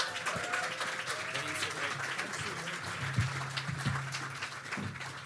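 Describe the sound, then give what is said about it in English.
An audience applauds to welcome a speaker, a dense, steady wash of clapping that holds at an even loudness from start to finish. “So everybody, you guys give him a big hand. Give him a hand.”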